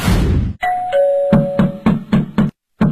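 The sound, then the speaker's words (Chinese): A two-tone doorbell chime rings at a home's front door, then five sharp, evenly spaced knocks on the door begin while the chime is still fading, each a loud thud. “这是谁呀？按门铃就别敲门了，他我们家那门可还要呢。”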